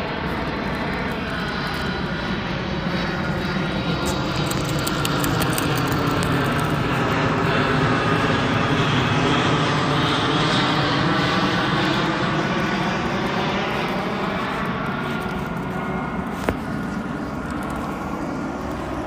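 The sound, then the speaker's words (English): Fixed-wing airplane taking off, its engines giving a loud, continuous roar that holds steady and unbroken for the whole stretch. “Did you hear? Takeoff has started. Takeoff has started.”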